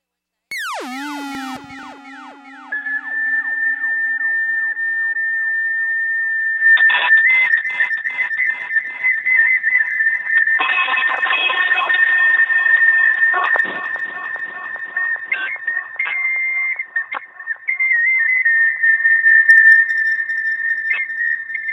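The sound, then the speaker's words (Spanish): An improvised little tune on a small whistle opens with quick sliding notes, then moves into long, shrill, sustained tones that waver and step between pitches, played alone without talk. “Les voy a mandar una cancioncita que voy a improvisar con un silbatito.”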